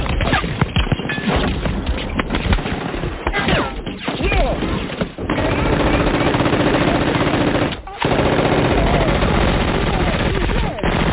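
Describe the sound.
Rapid gunfire rattles almost without pause in dense, loud bursts while a voice is heard among the shots, with only a couple of brief gaps in the barrage.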